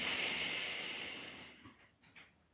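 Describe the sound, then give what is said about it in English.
A deep breath during a relaxation exercise: a soft, airy rush of breath gradually fades out, followed by a few faint small sounds, quiet overall and without talking. “deep breath in, all the way out. Last one, breathing in,”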